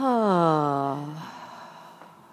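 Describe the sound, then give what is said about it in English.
A slow, deep cleansing exhale: a long voiced sigh that starts strong and glides lower in pitch, then trails into a soft, breathy release that fades away. “Taking a delicious cleansing breath and releasing with”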